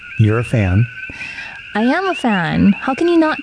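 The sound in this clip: Coqui frogs on Hawaii's Big Island calling in a steady, high-pitched chorus that runs continuously beneath two people talking.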